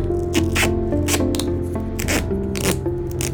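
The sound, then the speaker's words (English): Duct tape is torn off the roll and pressed into place, a series of short, rasping rips and scrapes that repeat in quick bursts over a steady tonal backdrop. “Just stay still for a moment. Duct tape. Is there anything it can't fix?”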